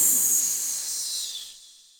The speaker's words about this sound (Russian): Змея ускользнула в тень, шипя про себя: «В следующий раз буду хитрее!»